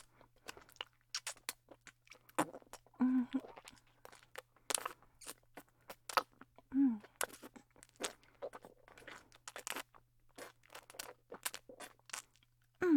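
Crunching and chewing of curry puffs: many crisp, irregular bites and chews, mostly fairly faint, with a few louder crunches scattered throughout.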